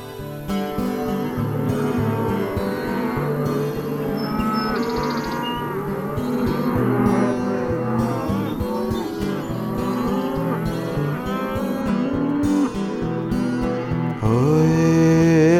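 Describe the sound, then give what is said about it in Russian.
Cows moo and bulls bellow on a Russian countryside pasture where herdsmen crack whips: many overlapping, drawn-out lowing calls of varied pitch continue throughout, loud and dense. “мычат коровы, кричат быки.”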